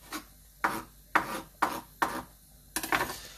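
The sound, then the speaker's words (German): A handful of fresh parsley is chopped with a knife, giving a series of short, faint rasping strokes in a fairly steady rhythm about half a second apart. “Dann nimmst du so eine Handvoll Petersilie. Schneidest die auch noch kurz klein.”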